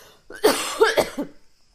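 A short, loud fit of coughing from one person, several harsh, rasping bursts in quick succession that fade into silence.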